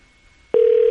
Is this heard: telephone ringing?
yes